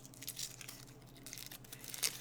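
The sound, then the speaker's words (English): Someone eats a Reese's peanut butter egg: quiet crinkling and crunching of the wrapper and candy in several short, soft bursts, with a louder crackle near the end. “He's eating a Reese's peanut butter egg.”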